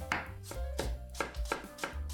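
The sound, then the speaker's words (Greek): A knife slices Zagorin apples into thin slices or matchsticks, making a quick, steady series of crisp chopping thuds on a board, each with a short crunchy attack, heard alone. “Κόβουμε εξαιρετικά μήλα ζαγορίν σε λεπτές φέτες ή σπιρτόξυλα.”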